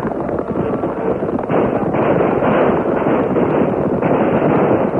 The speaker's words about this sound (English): The troopers opened fire as they charged into the battle.